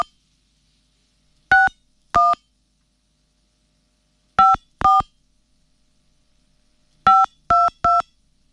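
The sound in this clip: Phone keypad tones dial a USSD code: seven short, clear beeps in three groups of two, two and three, separated by silence.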